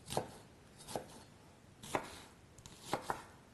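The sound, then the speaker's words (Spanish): A knife chops an onion into small cubes in a few sparse, crisp strikes on a cutting board, spaced about a second apart, with a quick double chop near the end. The chops are faint and heard alone, with no talk. “Y ahora voy a poner también esta cebolla, que la tengo que cortar. Voy a cortarla también en cuadraditos, así como la que acabo de añadir.”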